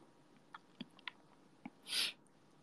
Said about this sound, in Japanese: うまっ。深夜に食べるラーメンはこりゃまた美味しいんだ。